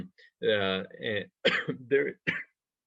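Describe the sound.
A person clears a dry throat with several short, voiced, rasping bursts close together, each rough and throaty with brief gaps between them.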